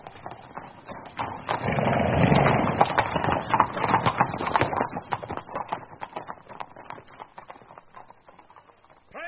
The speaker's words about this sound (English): At a brisk trot! Forward!